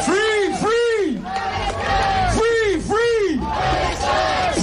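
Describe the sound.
A protest crowd chants in the streets of Vienna, many voices loudly repeating a rhythmic phrase with rising and falling shouted syllables.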